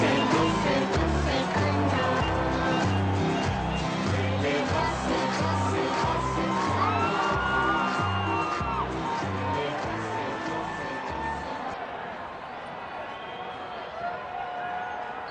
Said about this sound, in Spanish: Pero hay que ver el aplauso.